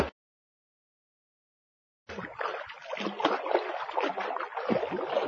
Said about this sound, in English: Here is your hippo. Hooray! The hippo plays in the swimming pool.